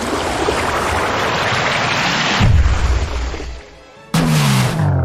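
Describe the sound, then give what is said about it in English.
The rushing roar of a flood attack in a monster-battling video game. A loud, continuous torrent surges, drops nearly to silence, then bursts back with a deeper gush. “Select an action for Urtana attack. Choose a move. Flood. Urtana used flood.”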